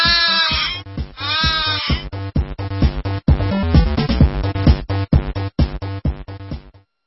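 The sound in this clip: A goat bleats twice at the start, with long, quavering, high-pitched cries over the first two seconds, followed by a busier, rhythmic stretch of other sound.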